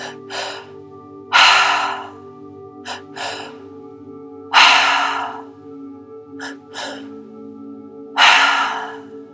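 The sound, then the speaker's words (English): Forceful active breathing all through the mouth during a three-part breathwork exercise, in repeating cycles of short sharp breaths building to a long, loud rushing breath. Three strong cycles play over a steady low musical drone, with no talking. “Whenever you feel ready, starting that triactive breath all through the mouth.”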